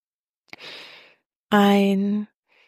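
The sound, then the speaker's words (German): A breathing exercise: a soft, airy inhale is followed after a short pause by a louder, voiced exhale through the mouth, like a drawn-out sigh. “Dann machen wir das Ganze jetzt mal für uns ein paar Mal. Ein und durch den Mund ausatmen.”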